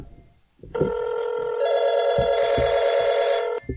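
A telephone rings with an incoming call: one continuous bright, buzzy ring lasting about three seconds, turning harsher and brighter partway through before it cuts off abruptly.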